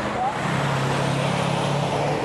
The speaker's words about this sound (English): there's no shoulder at all and no bike lane, and really fast, really heavy traffic